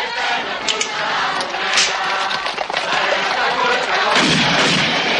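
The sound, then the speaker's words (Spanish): A man fires a shotgun in front of a crowd of peasants in a period film scene. A heavy, boomy blast swells near the end against a dense, noisy background that runs throughout. “Un hombre se coloca delante de los campesinos y dispara con su escopeta.”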